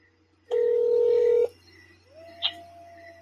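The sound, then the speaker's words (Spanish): Telephone tones as a call is placed: a steady, loud electronic tone holds for about a second, then a quieter, lower tone sets in with one brief higher beep over it. No voices. “Estamos en Realidad Paranormal y vamos a hacer la última llamada de la noche a esta chica venezolana”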